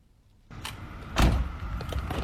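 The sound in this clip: A van door opens as a Sydney lawyer who lives in her van arrives at work, heard as a sliding rumble that swells into a heavier thump, followed by a low steady background.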